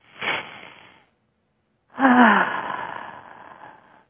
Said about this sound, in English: Just kick back, take a deep breath,